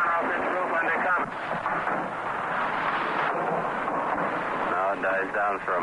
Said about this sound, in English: Streaks of tracers are now shooting up and flashing on the sea all over our heads